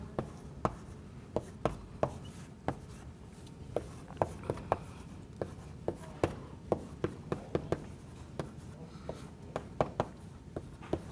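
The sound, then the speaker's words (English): Writing sounds in a recitation class on greedy algorithms: many sharp, short ticks and taps as strokes are made, spaced irregularly over a steady low background hum. “So let's write it down.”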